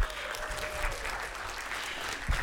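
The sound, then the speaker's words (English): Audience applause from a crowd: brief, dense, steady clapping that stays at an even level throughout. “Can you give it up for her one more time?”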